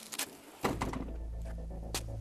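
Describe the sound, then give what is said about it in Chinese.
Hospital ward door opened from inside: a dull thud as it opens, followed by a steady low hum. “病房门被从里面打开”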